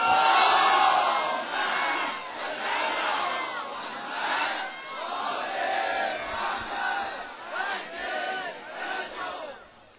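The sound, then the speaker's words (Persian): A large crowd loudly recites salawat in unison at a religious gathering offering congratulations to the revered Lady. Massed voices swell and ebb in long, continuous chanted phrases. “گفتم صلوات برای عرض تبریک محضر بی بی همینه. یه صلوات بلند”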